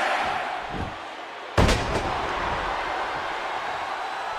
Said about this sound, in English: Rick Martel now with a huge scoop slam